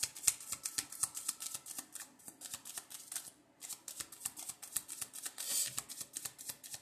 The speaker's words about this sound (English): I'm going to pull out my emotions cards to see what emotions specifically we're dealing with here.